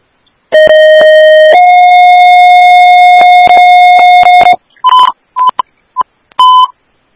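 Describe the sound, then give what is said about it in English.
Emergency dispatch alert tones for an ambulance station paging a difficulty-breathing call: a loud, long steady tone that steps slightly higher partway through, then a run of several short, sharp beeps. “Woodbury Station 1, these are your tones for the difficulty breathing at St. Therese”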